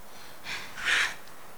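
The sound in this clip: Heavy breathing from two fighters catching their breath as snow falls, heard as two faint, airy breaths in quick succession, the second slightly stronger.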